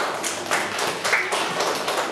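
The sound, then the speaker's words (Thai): Students applaud a classmate, a dense, even patter of many hands clapping together that lasts about two seconds, with no talking. “นักเรียนปรบมือให้กับตัวแทนค่ะ”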